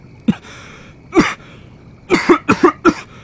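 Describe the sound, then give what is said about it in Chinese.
A person coughs alone: two separate sharp coughs come first, then a quick cluster of about five more in close succession, each short and forceful, with no talking. “待咳嗽下去才继续说”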